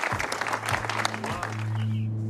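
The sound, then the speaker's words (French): Audience applause rings out in a studio as a restored car is handed back to its owner, a dense burst of clapping that swells briefly and then gives way to a low steady hum underneath. “Allez, tout le monde, applaudissez-le.”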